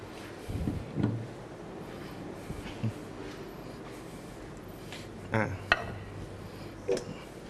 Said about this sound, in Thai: ขออนุญาตหยิบจานที่จะใช้เสิร์ฟก่อนนะครับ